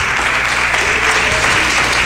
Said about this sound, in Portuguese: Se essas palmas é para Jesus, tem que ser as palmas mais avivadas.